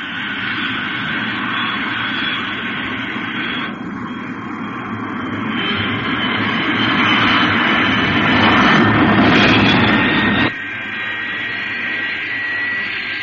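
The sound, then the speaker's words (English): A giant supersonic jet airliner roars as it takes off on a test flight in perfect weather. The steady, loud engine roar swells toward the middle, then drops abruptly near the end. “In perfect weather conditions, the giant Fire Flash supersonic airliner prepares for its test flight takeoff.”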